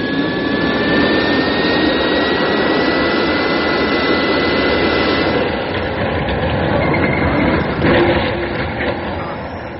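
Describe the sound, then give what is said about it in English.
Steady roaring engine of a spacecraft descending toward rocky ground for a crash landing, loud and continuous across the whole clip with a slight dip partway through. “Ground's coming up. There are too many rocks. I'm aiming towards a small crater. Stand by for crash landing.”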